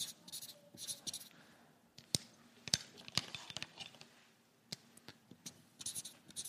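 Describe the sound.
Quiet scratchy writing strokes as something is written down by hand, a run of soft rubbing scrapes broken by a few sharper ticks and short pauses.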